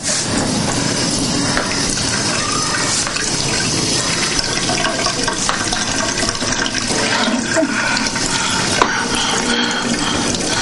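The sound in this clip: Water runs from a tap into a kitchen sink, a steady broad rushing hiss that stays even and fairly loud throughout, with no voices.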